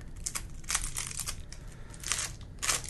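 Crinkling and tearing of plastic wrap as the seal on a sealed deck of playing cards is broken open, a few sharp crackly bursts over a steady low rustle.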